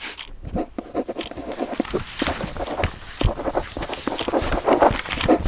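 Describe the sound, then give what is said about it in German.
Pen scratching on paper as a girl writes a letter to her best friend, a fairly loud, continuous stream of quick scratchy strokes. “Sie schreibt einen Brief an ihre beste Freundin Claire.”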